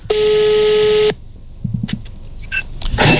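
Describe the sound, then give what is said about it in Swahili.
A telephone call being placed: a loud, steady electronic tone holds for about a second and then cuts off, followed by a quieter stretch of small clicks and short beeps. “Mpige simu. Mpige simu. Tuone kama tampata.”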